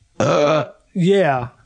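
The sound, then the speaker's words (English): Two long, deep burps in quick succession, each a loud voiced belch with a throaty, rumbling tone and a short pause between them. “I was supposed to take that burp off mic, but I was like, fuck no, I'm going to leave it on mic.”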